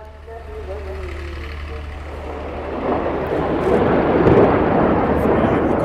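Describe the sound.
A rocket fired from Gaza into Israel: a low rumble swells into a loud, broad roaring rush from midway and holds strong to the end, with a faint voice heard near the start.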